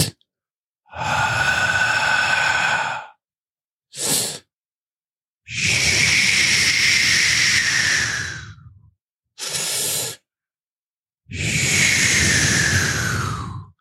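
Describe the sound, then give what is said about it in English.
Slow relaxation breathing alternates long and short breaths: three long, airy, hissing exhales with two short inhales between them, loud and clear with silence in the gaps. “It's actually a longer exhale and a shorter inhale that will sound like this,”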